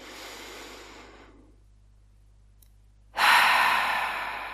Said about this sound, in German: Atme mal mit mir tief ein und lass deine Seele in diesem Moment schon mal reinkommen.